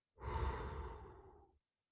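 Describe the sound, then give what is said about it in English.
One deep breath, a single long, airy exhale lasting just over a second, breathy and full at first and then trailing off into silence, heard alone. “She began to take deep breaths. In and out.”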